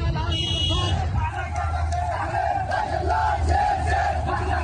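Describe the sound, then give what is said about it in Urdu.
Loud crowd of separatist supporters chanting and shouting slogans against exiled president Hadi's government amid street clashes, many voices massed together in a continuous, dense roar with rhythmic swells of unison shouting throughout. “ہادی کی حکومت کے خلاف علیحدگی پسندوں کے حامی نعرے لگا رہے ہیں۔”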